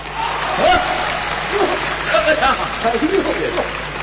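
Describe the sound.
An audience applauds a stage performer with dense, steady clapping that swells and dips slightly throughout, while a voice speaks faintly over it.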